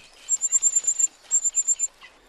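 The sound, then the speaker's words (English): Rapid begging calls from a cuckoo chick of two to three weeks, reared by reed warbler foster parents: many thin, high chirps in a fast, even stutter, arranged in two bursts with a short gap and a single weaker call at the end. “by 2 or 3 weeks of age, it sounds like two broods of hungry reed warbler chicks. So we thought maybe it's this very rapid begging which simulates lots of hungry young”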